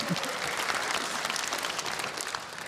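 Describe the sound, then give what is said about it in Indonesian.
Applause from a live audience during a judged talent competition, a steady dense clatter of many hands clapping at moderate loudness throughout, with a faint murmur of crowd noise underneath. “boleh tepuk tangan, kasih semangat dulu teman saya nih.”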